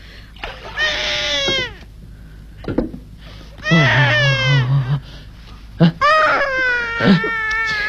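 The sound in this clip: A hungry baby cries in a few loud, high, wavering wails separated by short pauses, with brief whimpers between them.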